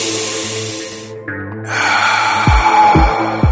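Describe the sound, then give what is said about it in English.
A deep breath is drawn in during a spoken self-help training exercise. A long airy inhale is followed by a second breathy rush, over steady music with low thumping beats near the end. “Take a deep breath.”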